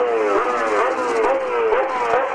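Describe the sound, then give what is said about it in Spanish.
A winning Toyota race car's engine revs in neutral after a touring car race, a loud tonal roar that climbs in a series of quick repeated surges, each rising in pitch before dropping back. “Y así lo acelera en vacío.”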